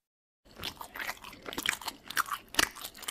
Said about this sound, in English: The way this berry just explodes when you bite into it.